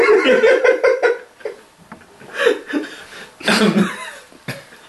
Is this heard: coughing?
yes